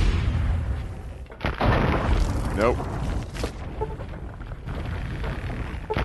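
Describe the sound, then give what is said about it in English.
Grenade explosions in a video game fight against a fire ant soldier: a few deep, booming blasts burst out amid continuous game noise. “Let's see if we can get him with two grenades again.”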